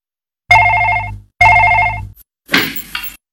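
Telephone ringing in a home: two loud, even ring bursts with a short gap between them, then a brief clatter.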